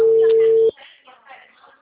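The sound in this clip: A single steady ringback tone sounds on an unanswered outgoing telephone call, then cuts off abruptly and is followed by faint, low voice sounds.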